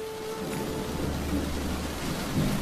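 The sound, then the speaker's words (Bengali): Rain starts to fall during a thunderstorm, a steady, dense hiss of drops over a deep, sustained thunder rumble that swells slightly toward the end, with no voices. “এই রে বৃষ্টি শুরু হয়ে গেল”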